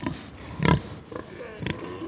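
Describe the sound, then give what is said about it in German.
Pig grunts from a boar and a sow sniffing each other in a sow barn aisle, where the boar is driven past the sows. A few short, low, snuffling grunts come in separate bursts, with the one near the middle loudest. “Im Gang vor ihr wird ein Eber auf- und abgetrieben, der nur dazu da ist, die Sauen in die richtige Stimmung zu bringen. Eber und Sau beschnuppern sich.”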